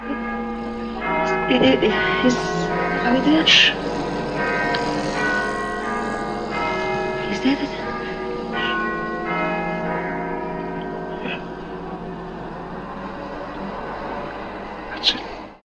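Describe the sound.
Ringing bell chimes sound in sustained, overlapping tones with a few sharper struck accents, holding fairly steady before fading at the end.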